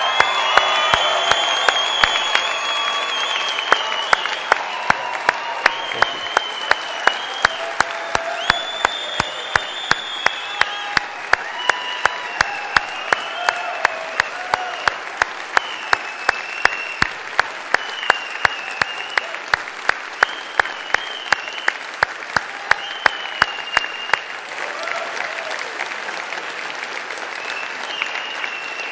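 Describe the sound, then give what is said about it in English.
A standing audience applauds to honor a couple, with dense, loud clapping that runs steadily for nearly half a minute and eases only slightly near the end. “So everybody on your feet, let's make some noise for Ed and Sally Baker.”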